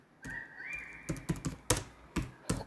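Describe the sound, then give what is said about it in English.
Someone types on a computer keyboard: faint, sharp clicking keystrokes in an uneven rhythm, with a few louder taps among softer ones, after a brief steady tone at the start. “Let me type this in.”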